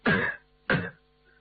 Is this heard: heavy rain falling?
no